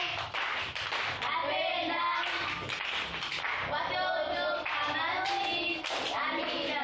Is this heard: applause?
yes